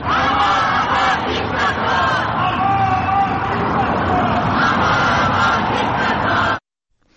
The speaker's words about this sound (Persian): ایرانیان در مقابل سفارت جمهوری اسلامی حاضر شدند و با در دست داشتن پرچم شیر و خورشید و زن زندگی آزادی به ضد مقامات جمهوری اسلامی شعار سر دادند.